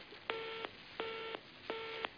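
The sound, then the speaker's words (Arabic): A telephone busy tone sounds after a call line drops: three evenly spaced bursts of the same steady, buzzy tone, each lasting about a third of a second, with short gaps of silence between them. “هل انت معي او الخط انقطع يا اخوه؟”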